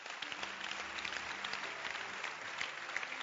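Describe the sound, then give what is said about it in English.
Audience hand-clapping at a church gathering after the preacher invites people to clap: soft, steady applause from many listeners, continuous and faint, with no voices standing out. “Can you clap your hands? Is it possible?”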